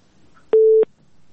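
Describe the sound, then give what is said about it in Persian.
A telephone busy tone after a call-in listener's line dropped: a single steady mid-pitched tone lasting about a third of a second, loud and alone over faint background noise. “بله بله، تماس شنونده ما قطع شد، تماس دیگه میگیریم.”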